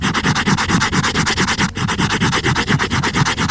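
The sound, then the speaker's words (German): A hardcover book binding is rubbed with fast, steady back-and-forth strokes, making a loud, dry scratchy rasp that repeats many times in an even rhythm. “Ein Hardcover-Einband von einem Buch.”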